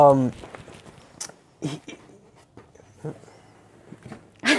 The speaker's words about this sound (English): these dogs, man, they're attention getters.